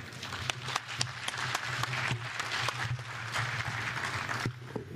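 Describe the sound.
Audience applause welcomes two speakers at a coal mining technical session, a moderate patter of clapping with individual sharp claps standing out over a low steady hum.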